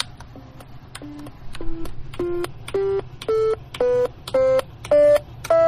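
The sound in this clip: Calculator keys beep as the digits one through zero are pressed in turn. Ten short electronic tones are evenly spaced, and their pitch climbs step by step from note to note.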